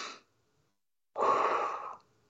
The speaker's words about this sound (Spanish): Respira otra vez. Lo haces varias veces y verás que no puedes tener el ataque de pánico.